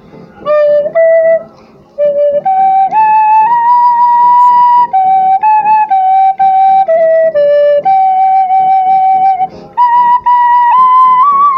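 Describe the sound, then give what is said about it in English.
Flute being played in a loud, sustained melody of held notes that step up and down, with a short break early on and brief gaps between phrases, heard with no other sound. “now I know how to flow once I pick up the flute. So now when I'm playing and I sound like this,”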